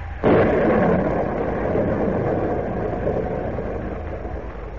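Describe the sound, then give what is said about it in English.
A storm at sea rages in a radio drama sound effect, opening with a sudden crash and settling into a loud, sustained roaring rumble that slowly eases without a break. “Say, this is awful, Captain. How are we doing? Badly, Kent, badly. Worst storm I've ever encountered.”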